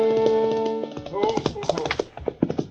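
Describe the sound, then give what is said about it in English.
A rider on horseback approaches, hooves clip-clopping in a steady, even rhythm. The hoofbeats are sharp and distinct and follow a fading sustained tone. “And then Chester rode up.”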